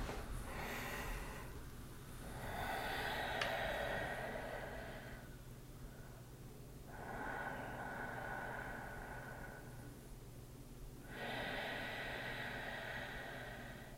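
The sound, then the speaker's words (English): Deep breaths drawn in and out through the nose, four soft, slow airy whooshes alternating with quieter gaps, sounding faint and unhurried with no speech. “Let's take a couple nice deep breaths in through our nose and out of our nose.”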